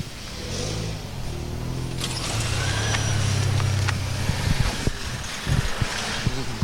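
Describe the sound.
Car engine creeping at walking pace through a traffic jam, a low steady rumble that swells gently in the middle, with a few sharper knocks toward the end.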